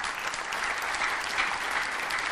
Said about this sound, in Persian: به افتخارش دست بزنید